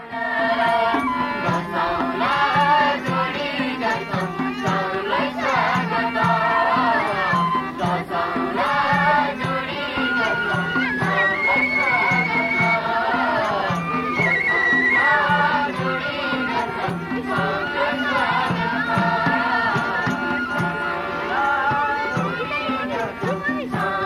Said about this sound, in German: Das sind Kinder aus der Schule, die als Gruppe mit diesem Lied begrüßt haben.